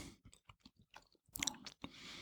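Faint chewing of an alcohol-filled fruit gummy: soft, wet, sticky squelches in an irregular rhythm, with a slightly crisper bite partway through.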